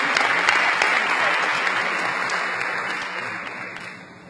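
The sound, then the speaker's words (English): An audience applauds at a meeting, congratulating a married couple on their first wedding anniversary. Dense, steady clapping from many hands holds evenly, then eases slightly toward the end. “I think we should give them a hand. We congratulate them on their first anniversary.”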